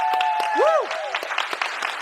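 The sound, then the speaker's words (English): Audience clapping at a youth church gathering where scripture is being read: a few loose, scattered claps that come in a quick uneven rhythm, with a sustained gliding tone sounding over them. “So I'm going to task you guys with something. With the first piece of scripture that I talk about, can y'all put your hands together?”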